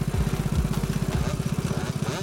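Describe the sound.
A motorcycle with a sidecar pulls away, its engine giving a steady, rapid low chugging that stays loud and even throughout.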